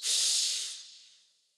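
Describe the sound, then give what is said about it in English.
One deep breath drawn in through the nose, a breathy hiss that swells quickly, holds, then fades out slowly over about a second and a half, heard alone. “let's take a deep breath to center ourselves in this moment. In through the nose,”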